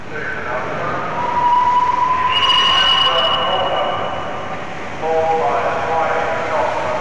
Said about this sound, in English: you can hear now the sounds recorded at Paddington Station when the locomotive arrived back on a November day in